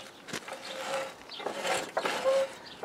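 The gear lever of a furs machine built in 1891 shifts to tighten its drive belts, giving a few soft mechanical knocks and ratcheting creaks, faint and intermittent.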